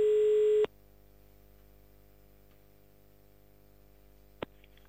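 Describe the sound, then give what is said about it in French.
A telephone call being placed to Jumet: one loud, steady call tone lasting about half a second, followed by quiet line hum and a single faint click near the end. “On appelle direction Jumet.”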